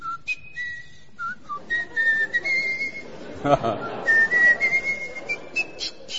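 A person whistles a tune in clear, bright notes, mixing short chirps with longer held tones that step up and down, broken by brief pauses. A dull knock and some background rustle sit midway.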